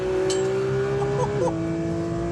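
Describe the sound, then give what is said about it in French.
Sports car engine revving to 9000 rpm on a race track with a chicane and tight corners, shifting into fourth gear: a loud, steady high engine whine that briefly dips in pitch near the middle as the gear changes, then carries on. “Allez, 9000 tours, je passe la 4.”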